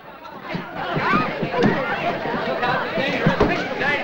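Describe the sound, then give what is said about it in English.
Crowd chatter at a lively gathering as a man runs through it, heard as overlapping voices and general babble with a few scattered thumps, holding at a moderate, fairly even level throughout. “He leaves her and runs through the crowd until stopped by a sailor.”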